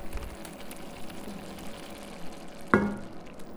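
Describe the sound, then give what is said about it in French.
Onion soup of equal parts onions and stock heating in a pot as it starts to simmer: a soft, steady hiss and low bubbling, broken near the end by one brief, sharper knock. “Moi, je mets la même quantité, 500 g d'oignons, 500 g de bouillon. Maintenant, vous pouvez doubler si vous voulez, mais moi, j'aime bien qu'il y ait beaucoup d'oignons dans la soupe. Alors, on attend que ça frémisse.”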